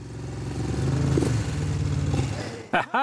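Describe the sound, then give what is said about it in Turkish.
Rumbling engine noise from many motorcycles gathered on a road, a steady low drone running throughout with voices faintly mixed in, ending in a short sharp burst of louder sound. “çok fazla motor var. Hem de çok fazla motor, evet.”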